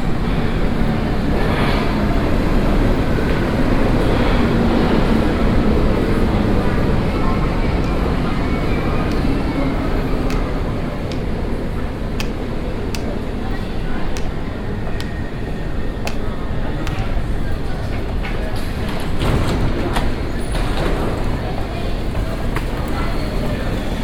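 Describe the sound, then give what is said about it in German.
A U2 subway train pulling into platform 2 of a Munich underground station: a loud, continuous broad rumble with a rushing hiss, holding steady throughout with only small swells. “Am Bahnsteig 2 fährt gerade die U2 Richtung Messestadt München ein. Bitte Vorsicht an der Bahnsteigkante.”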